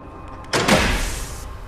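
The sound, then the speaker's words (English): A door is kicked open into a grimy room: one sudden loud impact followed by a rough, rattling tail that fades over about a second, with nothing else heard. “Then he kicks open the door into the grimy room”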